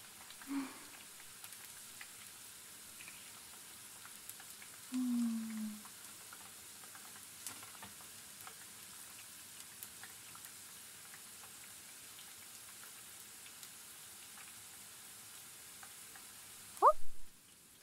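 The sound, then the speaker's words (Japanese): Shiso leaves deep-frying in hot oil give a faint, steady sizzling hiss throughout, broken by a few brief, slightly louder bursts. “大葉は20秒くらいですぐ上がっちゃうんです。いい音でしょ。”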